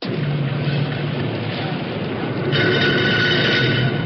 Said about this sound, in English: The sound you hear now is on an assembly line at one of the General Motors factories